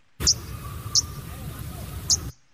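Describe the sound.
Arctic warbler calling: three sharp, high-pitched chirps spaced apart, each brief and distinct, over a constant low rumbling background.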